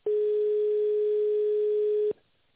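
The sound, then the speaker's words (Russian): Steady telephone tone as a call to a company switchboard is transferred to an operator: one unbroken, mid-pitched hum of about two seconds that cuts off abruptly, leaving near silence. “Вызов переводится к оператору. Пожалуйста, подождите.”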